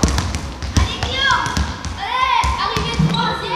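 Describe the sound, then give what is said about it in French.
A basketball is dribbled around poles and then shot during a coach's demonstration for primary school pupils; a quick run of sharp bounces thuds beneath steady talk. “il fait le tour des piquets en dribblant et il va tirer”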